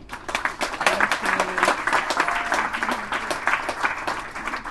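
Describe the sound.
An audience applauds to welcome an author to the stage, a dense, steady patter of many clapping hands that swells quickly and holds, with a few faint voices mixed in.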